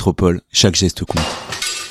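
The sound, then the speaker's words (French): Glass shattering as a hammer smashes a shop window: a voice speaks first, then a harsh, noisy crash of breaking glass follows and crackles on loudly to the end. “Et ça, c'est le bruit de mon marteau dans la vitrine de la métropole.”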